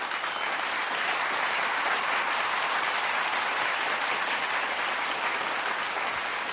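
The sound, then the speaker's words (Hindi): Sustained applause from an audience after a speaker's opening words on stage, a dense and steady roar of clapping that holds at an even loudness from start to finish with no voices. “करीब 2 minute तक लगातार तालियां बजती रहीं।”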